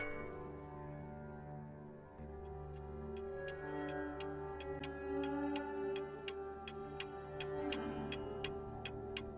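A clock ticks in sharp, evenly spaced clicks that begin after about two seconds and continue to the end. The ticking is quiet and sits over a soft, sustained musical drone.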